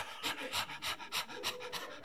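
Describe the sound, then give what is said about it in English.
A voice imitates panting, like a dog, with about seven quick, breathy huffs in a steady, even rhythm, fairly soft and with no talking. “what it means is to pant after. I mean, this is what you and I look like when we're coveting.”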